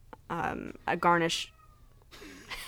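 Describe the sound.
A cat meows in a short, tonal mew while people talk nearby.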